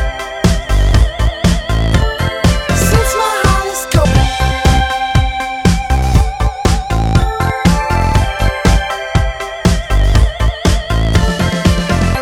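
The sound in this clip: An indie electropop band song plays loud and full, with a driving, regular beat under layered synths and melody throughout. No one talks over it.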